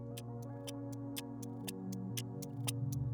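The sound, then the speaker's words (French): Clock ticking sound effect: crisp, evenly spaced ticks, about four per second, run steadily throughout over a quiet, sustained low musical drone. “L'aiguille du temps continue de tourner.”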